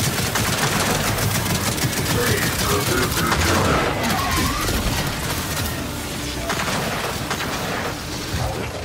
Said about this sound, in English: Look at this! They're tearing each other apart! What do you say we help them out? Open fire!